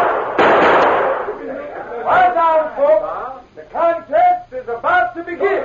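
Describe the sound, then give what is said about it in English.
A single gunshot as a sheriff fires his gun into the air at a shooting contest: one sharp, loud blast that rings out and decays over about a second, followed by people talking. “until the sheriff, after looking at his watch, raised his gun and fired into the air.”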